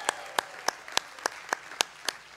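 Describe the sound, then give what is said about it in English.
Rhythmic clapping welcomes people at a church service: a steady, evenly spaced series of sharp claps, fairly faint, with no voices or cheering clearly standing out. “can we make some noise and welcome in our online Vineyard family?”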